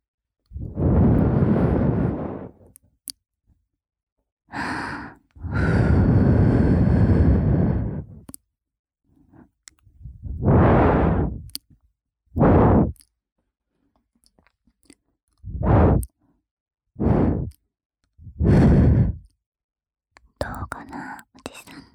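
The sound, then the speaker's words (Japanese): Gentle breaths blown out in a series of soft, airy puffs, some long and drawn out, others short, with quiet gaps between them and no clear voice. “じゃあさっきと見比べるのも兼ねて、ふうふうしちゃうね。”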